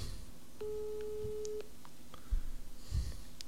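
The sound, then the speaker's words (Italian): A single steady ringback tone, about a second long, plays from a mobile phone held up to a microphone while a call is placed. Faint clicks and rustling follow. “Ecco, sto chiamando.”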